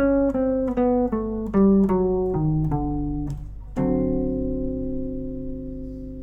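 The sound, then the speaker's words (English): A Mixolydian flat 2 scale starting from D, played descending as a steady stepwise run of single plucked tones falling in pitch, ending on a held low note that rings out, with no talk. “you might call it Mixolydian flat 2, flat 9, something like that. Alright, so that's going to sound like this descending.”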